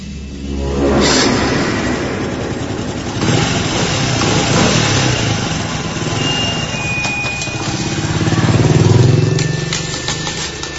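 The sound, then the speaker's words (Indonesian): Motorcycle throttle revving as the rider pulls away from a school gate, a loud rough engine drone that holds, eases and surges again near the end. “Satpam depan sekolah pun membukakan gerbang dan aku langsung menancap gas motorku pulang ke rumah.”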